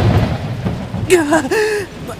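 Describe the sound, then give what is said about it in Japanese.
A sudden, violent hailstorm sounds as a dense, pelting noise with low rumbling underneath, while a man's voice cries out loudly through the middle of it. “突然天気が激変し、激しい雹が彼を襲ったのです。”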